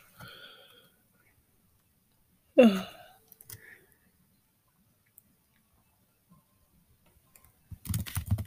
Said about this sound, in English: I'm gonna type in, how about,